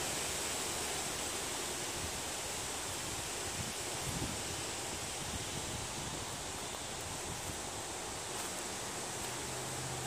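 A steady, rushing wind sound effect, broad and constant noise with little variation, fairly faint and without voices.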